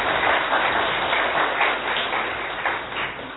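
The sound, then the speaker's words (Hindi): An audience applauds with dense, steady clapping that holds at an even level and fades slightly toward the end. “हाँ, आप ताली बजा सकते हैं।”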